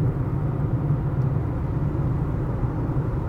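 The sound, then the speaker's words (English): Inside a Kia Rio driving home at night, a steady low engine and road rumble stays even and unbroken throughout. “We're actually driving home on this Drive Home podcast.”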